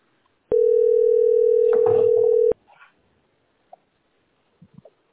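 Telephone dial tone: a steady, single-pitched electronic hum that runs for about two seconds and stops abruptly, followed by a few faint, brief sounds.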